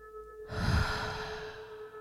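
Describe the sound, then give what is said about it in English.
A slow, audible exhale through the mouth with an open 'ha', part of a guided breathing exercise. It starts after a brief quiet moment and is a loud, breathy rush that fades steadily over more than a second. “Inhale through your nose, hold. And then exhale through the mouth, making a ha sound.”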